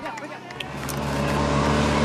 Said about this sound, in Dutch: En wij zijn met de motor inmiddels voorbij Ciccone gereden.